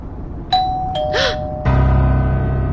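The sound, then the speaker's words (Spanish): A doorbell rings with two clear, bright chime notes in quick succession, followed by a brief swooping tone and then a steady low hum. “Estaba demasiado distraída cuando sonó el timbre. Pero no hay duda de que ha sonado.”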